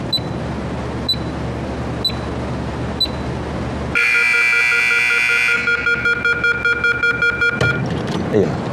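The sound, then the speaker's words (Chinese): An electronic timer starts beeping once a door is locked: four high, evenly spaced beeps, then a loud steady tone lasting over a second, then a quicker run of repeated beeps. “就这个滴滴滴这个声能不能给它关了？特像 CS 里边匪徒下包那声。”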